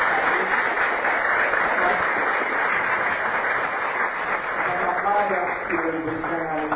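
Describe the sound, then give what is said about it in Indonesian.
An audience at a seminar in a hotel gives a long round of dense, even applause, with a voice faintly emerging beneath it near the end. “Bapak Ibu dan rekan sedama, kita beri aplaus yang bagus sekali untuk”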